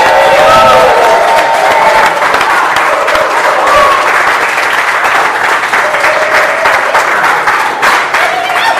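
Audience applause and cheering at a live show recording in the Cambridge area: loud, sustained, dense clapping that holds steady for several seconds, with shouts rising out of it early on.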